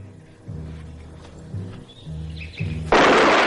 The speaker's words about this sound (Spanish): vándalo le dispara mientras el estudiante y Curro bajan por el monte.